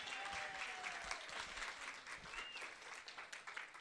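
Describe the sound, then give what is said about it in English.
Convention audience in Sacramento applauding a chapter president's welcome, a faint, steady patter of many hands clapping throughout. “Give him a hand.”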